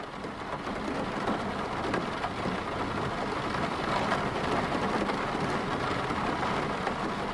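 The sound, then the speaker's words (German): Rain falling in a steady, even downpour, a dense continuous hiss of drops with no breaks or change in intensity throughout. “Jeder kennt Regen. Alle Menschen haben mal die Erfahrung gemacht, Regen zu hören. Regen ist etwas Universales,”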